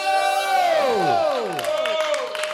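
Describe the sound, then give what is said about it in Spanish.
A comedy club audience cheers as the next comedian is brought on, loud whoops and shouts sliding downward in pitch, followed by scattered clapping. “Fuerte aplauso para Andrés Lazo.”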